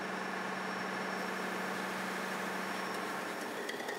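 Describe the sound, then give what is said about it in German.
A tugboat's twin diesel engines run as a steady, fairly faint low drone with an even hum throughout, no voices and no clear change in pitch. “Die Dieselmotoren können starten.”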